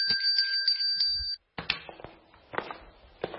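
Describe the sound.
A bell rings with a bright, sustained, rapidly pulsing tone for about a second and a half, then cuts off abruptly. A few soft knocks and clicks follow.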